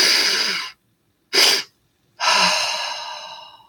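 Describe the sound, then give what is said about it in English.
A person demonstrates a stress-relief breathing technique: a loud, deep inhale, a brief pause, a short extra sniff of air on top, then after another pause a long, slow exhale that gradually fades. “you take one big deep breath in, and then take another quick breath on top”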